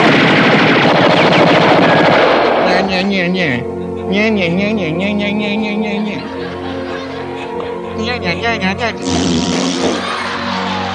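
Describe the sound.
Police open fire on a monster: a rapid series of loud gunshot bursts mixed with roaring and shouting voices, with a dense blast of noise at the start and a quick volley near the end.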